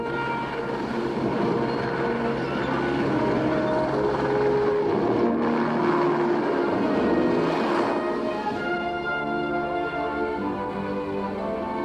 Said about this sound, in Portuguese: Tráfego de Quincy, aqui é o helicóptero 234 Zulu, se dirigindo ao norte.